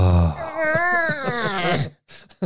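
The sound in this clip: Drawn-out vocal moaning in admiration of a sky-blue colour, a single sustained groan that climbs and then sinks in pitch before breaking off, followed by a short faint sound.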